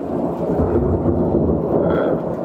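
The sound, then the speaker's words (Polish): Thunder rolls as a low, continuous rumble that holds fairly steady in loudness for the whole moment. “przepraszam, tak, grzmi.”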